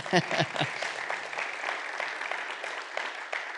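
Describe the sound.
Applause from a church audience welcoming a guest during a service: steady, dense clapping that holds at an even level throughout, with a few sharper claps near the start.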